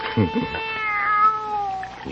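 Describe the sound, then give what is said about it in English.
A young kitten gives a drawn-out, plaintive meow, thin and high, that wavers in pitch and then trails off, after a few brief sounds at the start. “Nobody's going to hurt you, kitty, no. How about some milk, huh?”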